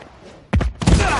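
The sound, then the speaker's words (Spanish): A door is kicked down during an action scene, landing as two heavy thuds about a third of a second apart, the second louder and trailing into rough noise. “sube al piso y derriba una puerta”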